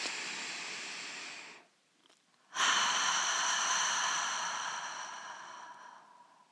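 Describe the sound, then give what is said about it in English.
A deep, cleansing inhalation through the nose during a guided meditation, followed after a brief pause by a longer, complete exhalation through the mouth that gradually fades; both breaths are soft, airy and alone. “And do a cleansing inhalation through the nose and release it completely through the mouth.”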